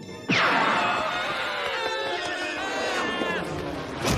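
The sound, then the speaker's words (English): Cartoon characters Scooby and Shaggy crash into a table with a sudden loud impact, followed by long, wavering shouted cries that carry on to the end. “Scooby and Shaggy hit the table, then they are flung into the air.”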